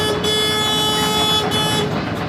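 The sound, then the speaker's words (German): Horn of a harbour launch belonging to a river boatmen's church, sounding as it arrives at a ship: a steady, sustained, reedy tone holds through the whole clip over a dense engine rumble. “Die Hupe ist immer das Signal, dass die Barkasse der Flussschifferkirche da ist und die Besatzung rauskommen kann, wenn sie möchte.”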